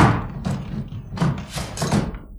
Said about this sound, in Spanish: Lograron romper un panel de la puerta y descorrieron los pasadores.